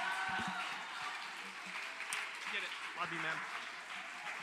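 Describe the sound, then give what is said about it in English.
Applause from a youth church service crowd welcoming a guest pastor to the stage: a steady, dense wash of clapping that lasts throughout, with voices calling out beneath it. “Hey, would you stand to your feet, put your hands together, welcome my friend, Pastor Joel Richards.”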